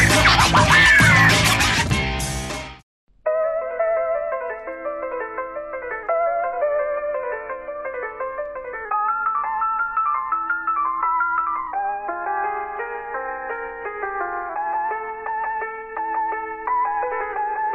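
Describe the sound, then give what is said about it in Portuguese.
An intro jingle opens with a loud, dense burst of noise for about three seconds, then after a brief gap turns into a bright, tinkling electronic melody of steady, chime-like notes, rather like an ice cream truck tune. “Estamos ficando velho. E roda a vinheta.”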